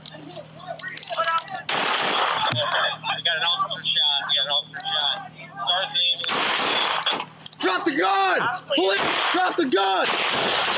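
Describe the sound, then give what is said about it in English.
Gunfire from a rifle during a police shooting, heard over a police radio channel: a few sharp, loud bursts broken up by urgent shouting voices and radio chatter. “Shots fired! Police action shooting! He's got a rifle!”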